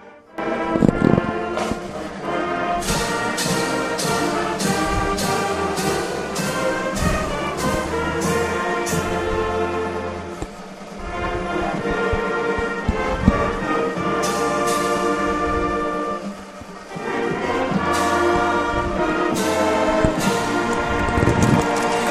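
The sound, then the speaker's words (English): A high school marching unit performs the US national anthem at a high school football game: loud, sustained band music with regular percussion hits running throughout, briefly dipping in level midway. “That's the Star Spangled Banner as performed by the Conestoga Marching Unit.”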